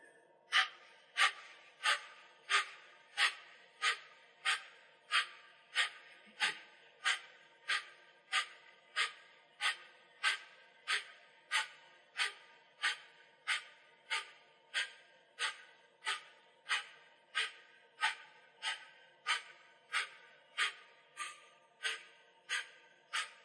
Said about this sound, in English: You're going to be doing sharp exhales.